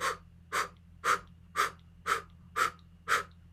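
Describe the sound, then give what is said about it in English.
Forceful breaths blown out from the diaphragm in a breathing exercise, seven even, breathy whooshes about half a second apart in a steady rhythm over a low hum, fairly faint, with no talking. “So a blow breath is coming from the diaphragm and just blowing out.”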